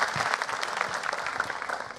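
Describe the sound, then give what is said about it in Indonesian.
Applause from the audience at a stage competition: steady, dense clapping with many quick overlapping claps at an even, moderate level, with no talking. “Itu udah pernah dibawain juga tepuk tangan itu oleh yang lain.”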